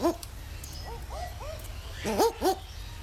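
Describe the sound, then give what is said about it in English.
Barking owl calls at a wildlife sanctuary: a series of short, bark-like hoots. A few fainter ones are scattered through the middle, then two loud, sharp barks come close together near the end. “It is the Barking Owl from Billabong Sanctuary.”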